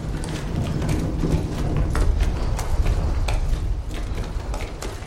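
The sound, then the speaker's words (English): Rumbling clatter of a huge white horse hauling a line of tubs past in an underground tunnel: a steady low rumble with many irregular knocks and clanks, and no talk. “They flatten themselves against the wall as a huge white horse passes, harnessed to a line of tubs.”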